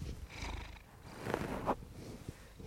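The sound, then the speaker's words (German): A cat purrs softly: a faint, continuous low rumble with a steady rhythm and a few slightly stronger pulses, heard alone. “Ein leichtes Schnurren.”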